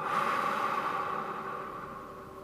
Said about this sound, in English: Deep breath in, palms up. And exhale, down into heart center.